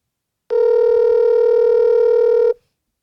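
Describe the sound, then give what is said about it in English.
A telephone dial tone sounds as one steady, loud electronic hum lasting about two seconds, starting and cutting off abruptly with silence on either side. “we're going to dial up”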